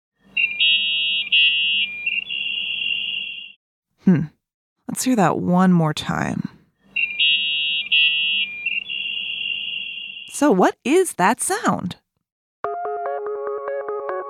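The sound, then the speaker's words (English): A dial-up internet modem connecting, heard twice: a steady high tone, then bursts of warbling screeches and hiss. A person speaks briefly between the two runs. “The internet! The internet? Huh? Well, that's what the internet used to sound like.”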